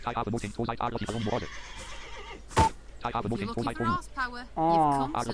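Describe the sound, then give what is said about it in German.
A horse neighs in a few high, wavering whinnies, with a sharp click near the middle and a strong final whinny at the end. “Ein Pferd, aber ich kann es nicht streicheln oder so.”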